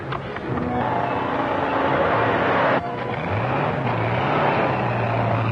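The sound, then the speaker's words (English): A car pulls out and drives away in a radio crime drama, a steady, loud engine rumble that briefly drops out midway, then returns with a rising, revving pitch as the vehicle accelerates off. “Car pulling out from where I left that fellow handcuffed.”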